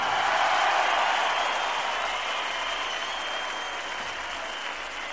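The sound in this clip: Enthusiastic concert applause greeting a new drummer as he comes on stage, a dense, continuous roar of clapping that stays loud and tapers off only slightly toward the end.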